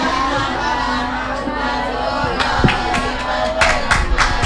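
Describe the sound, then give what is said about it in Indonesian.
A crowd gives lively applause and cheering for young children who have recited a prayer. Overlapping voices shout and whoop, and a few sharp claps and louder bursts come toward the end. “Sekali lagi bertepuk tangan yang meriah.”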